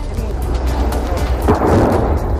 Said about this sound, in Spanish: Es el sonido de una de las tres bombas que cayeron en la ciudad de Leópolis